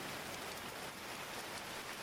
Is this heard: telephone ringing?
no

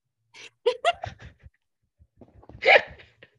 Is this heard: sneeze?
yes

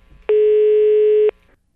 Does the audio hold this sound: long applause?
no

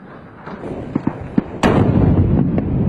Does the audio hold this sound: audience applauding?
no

